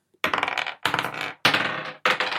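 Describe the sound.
Dice rattle and clatter on a table during a tabletop role-playing game dexterity check, in four quick bursts of loud, bright rolling separated by short pauses.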